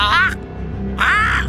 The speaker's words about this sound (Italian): Scusi, mi è scappato il pappagallo!